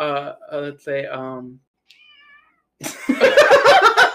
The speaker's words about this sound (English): Excuse us, the cat is meowing. She is hungry.